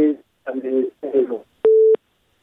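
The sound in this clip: A single steady telephone busy-tone beep after a phone-in caller's line drops. It is mid-pitched and brief and comes after a few short bursts of voice.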